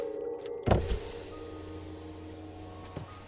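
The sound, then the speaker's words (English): A car's electric window is lowered: a short clunk starts a steady mechanical motor whine that runs for a couple of seconds and ends with a faint click. “She winds down the window.”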